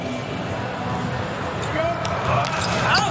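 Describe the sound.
A volleyball is served during a match, and sharp ball impacts sound over steady crowd hubbub. Squeaky shoe sounds come near the end, and voices are heard throughout.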